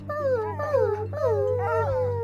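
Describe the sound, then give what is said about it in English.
Dogs whining in locked cages as they paw at them: a run of high, wavering whimpers whose pitch slides downward, repeated several times over a steady low hum. “the other dogs whined and pawed at their locked cages”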